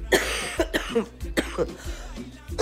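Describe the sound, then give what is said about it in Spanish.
Harsh, repeated coughing from a person with a bad cough: a series of loud, rough bursts in an uneven rhythm, with no speech between them. “perdóname, hasta el aire te estoy tosiendo. Sigue la tos, bastante fea, por cierto.”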